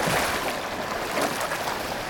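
Water sloshing and churning as a person lets himself fall into an outdoor swimming pool at a summer bath in Kreuzberg. The wash is steady and fairly loud, with no clear single splash and no voices.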